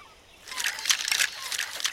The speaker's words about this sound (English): Outside, a barman shakes a stainless steel cocktail shaker.